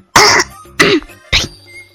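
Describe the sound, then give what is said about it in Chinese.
Three harsh, loud coughs from a throat clogged with phlegm, evenly spaced and abrupt, each a short rough burst, heard alone. “等会儿，我先咳嗽两声。嗓子有点痰。”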